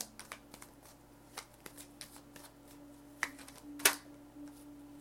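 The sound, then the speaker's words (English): Tarot cards being shuffled for a reading: a brisk run of soft papery flicks and riffles, uneven in rhythm, with a sharper, louder snap near the end. “Okay, let's get a few more cards.”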